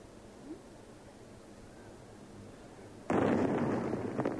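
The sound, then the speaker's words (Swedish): Sudden loud blast as American forces carry out a controlled detonation of an unexploded explosive charge at a street intersection in Baghdad, Iraq, breaking a quiet stretch and followed by a sustained, rumbling roar that lasts to the end. “En odetonerad laddning sprängs av amerikanerna.”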